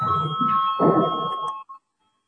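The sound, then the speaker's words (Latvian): Voting bell rung in a parliament chamber before a vote, heard as a steady electronic ringing tone that holds for over a second and then stops, with murmuring voices underneath. “Lūdzu zvanu”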